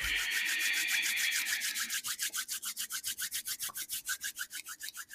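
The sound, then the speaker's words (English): Palms rubbing together during a meditation with essential oils: a steady continuous swishing rub at first, then many quick, rhythmic back-and-forth strokes, dry and papery, with no talking. “relax the arms, and then rub your palms together one more time.”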